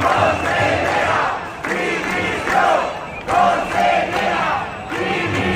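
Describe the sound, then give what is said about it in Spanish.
A protest crowd at a teachers' strike march in Valencia chants in loud, rhythmic bursts. The phrases rise and fall together in several repeated waves, with shouting voices overlapping throughout. “La ciudad ha vivido una nueva manifestación en el marco de la huelga de profesores de la educación pública en la comunidad.”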